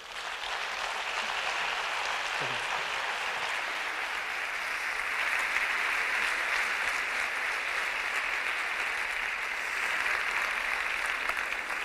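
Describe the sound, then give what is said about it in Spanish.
Audience applause welcoming a speaker to a talk on grief over missing children: an even, fairly soft roar of clapping that holds steady for the full twelve seconds. “Lo vamos a recibir con un fuerte aplauso.”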